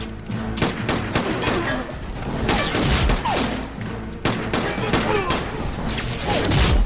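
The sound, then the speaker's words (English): Gunfire from two pistols in a video game, with many sharp, loud cracks in rapid, uneven bursts, mixed with clattering impacts and a dense, continuous backdrop of game action. “Jack's got two pistols. Mm-hmm. Oh, poor Sonny runs around the corner and he gets shot”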